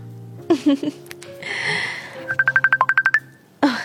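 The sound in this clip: A mobile phone ringing with an incoming call: a quick run of about a dozen short, high electronic beeps, with brief voice sounds before and after.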